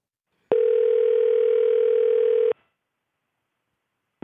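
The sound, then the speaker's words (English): Ringing tone heard while placing an outgoing phone call: one steady buzzing tone lasts about two seconds, followed by silence, and the next ring starts at the very end. “So let's give Wesley a call.”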